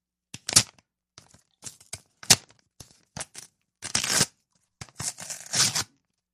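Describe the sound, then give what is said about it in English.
A very sticky envelope flap peeled open by hand, gripping like flypaper: many short, irregular crackling and tearing bursts, some sharp and some drawn out, separated by brief silences, with no talking. “usually when you open like an envelope, it's not very too sticky. It usually just rips. This one's very sticky. It's like fly paper.”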